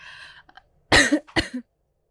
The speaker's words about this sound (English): I'm sorry about coughing.